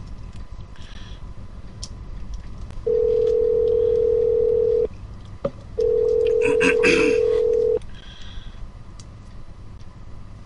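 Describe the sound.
Ringback tone of an outgoing phone call: two long steady mid-pitched buzzes, each about two seconds, separated by a short pause with a single click, over a low background hiss.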